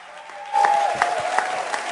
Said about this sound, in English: Come on, Church on the North Coast, get up on your feet. Welcome Pastor Greg and Bobby Ball all the way from Naples, Florida. Come on, give them a shout.